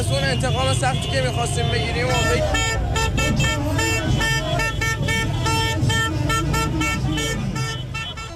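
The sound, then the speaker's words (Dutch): Many car horns honk in a street celebration in Tehran, dense overlapping toots repeating at a steady high level, with crowd voices mixed in. “Met vuurwerk en toeterende auto's.”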